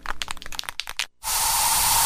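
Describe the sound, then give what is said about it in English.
Bug spray hissing from an aerosol can in a home: a run of short, crackly bursts, a brief pause, then a loud, steady hiss that continues to the end. “So you just used bug spray in your home.”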